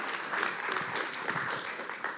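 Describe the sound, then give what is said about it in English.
A church audience at a morning service gives a round of applause: steady, dense clapping that stays at an even, moderate level for a couple of seconds, with no voices over it. “Can we give a round of applause to Katie for sharing the scriptures?”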